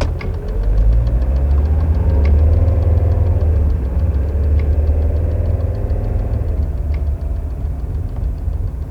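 A car engine runs steadily with a low, continuous rumble and a faint knocking vibration throughout, with no voices.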